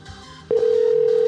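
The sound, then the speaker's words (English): A telephone dial tone on a landline cuts in after half a second of low background hiss, then holds as a loud, steady, single-pitched hum to the end. “I'll call her from her own landline and just see if I can trick her into answering.”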